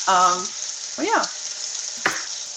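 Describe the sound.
Pancakes fry in a pan with a steady, bright sizzling hiss throughout, and a few short voice sounds rise briefly above it.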